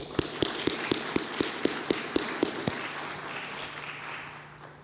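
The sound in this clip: Evenly spaced hand claps greet a visiting speaker at a church service, about a dozen sharp beats over roughly two and a half seconds, then they stop and a low steady hum remains.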